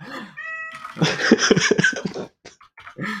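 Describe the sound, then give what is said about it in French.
A house cat meowing and crying because it cannot get in: a series of loud, drawn-out, plaintive meows of shifting pitch, the cat heard alone. “mon chat, il pleure parce qu'il peut pas rentrer”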